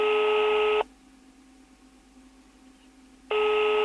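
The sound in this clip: A telephone line tone sounds as someone places a call: a steady, buzzy electronic tone cuts off, a long silence follows, and then the same tone starts again.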